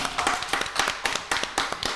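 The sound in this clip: Applause greets a guest joining the studio: brisk, fairly regular claps from a few hands, sharp and moderately loud, with no talk over them.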